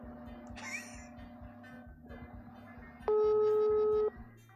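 A telephone ringing tone on an unanswered call sounds as one steady, loud electronic tone lasting about a second, over a soft rhythmic pulsing backdrop.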